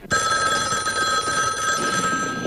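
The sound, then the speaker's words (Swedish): A telephone bell rings steadily, its bright metallic tone starting abruptly and holding without a break through the whole stretch, with no voices over it. “Your phone's ringing.”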